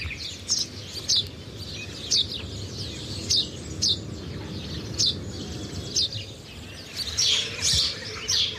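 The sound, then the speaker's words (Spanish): House sparrow chirping in a steady series of short, bright chirps over a constant low background rumble. No voices are heard. “Es que solo el hecho de escucharlo es como que estamos un poquito más cerquita de ellos. Es un gorrión común.”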